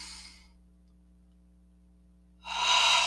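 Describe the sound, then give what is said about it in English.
Deep breath drawn in through the nose during a calming meditation exercise: a soft, airy rush that fades out, then a long near-silence, then a louder airy breath near the end. “And you want to take a deep breath in”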